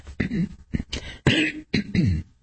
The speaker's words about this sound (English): Sorry for the coughing.